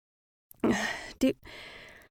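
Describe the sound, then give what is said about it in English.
Breathing into someone's ear, heard alone as two airy breaths: a longer breath, a brief pause, then a second breath that starts sharply and trails off softly. “Do you need to breathe in my ear like that?”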